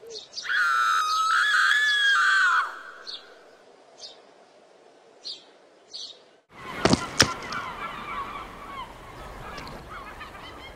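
Bird squawking: one long, loud, harsh honking squawk, then a few short, faint chirps, followed by a burst of rough noise.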